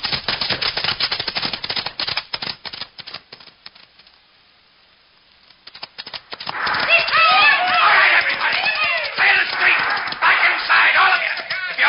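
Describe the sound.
Galloping horses carrying masked robbers into town, a dense clatter of rapid hoofbeats that thins to a brief lull, then surges back louder and busier with shouting voices over it.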